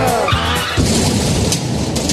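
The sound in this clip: A sound effect of a car driving with tires skidding: a brief high squeal over engine roar at the start, giving way to a sustained, dense rumbling rush.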